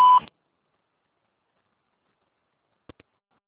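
Voicemail beep on a Portuguese-language mailbox: one short, clear high-pitched tone opens, then a long silence, broken only by two faint clicks near the end.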